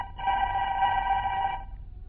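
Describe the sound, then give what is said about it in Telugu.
A telephone rings once, an electronic tone with bright stacked harmonics that holds steady for about a second and a half before cutting off, faint low hum underneath and no talk. “బిజీగా ఉన్న ఓ doctor గారికి phone వస్తుంది.”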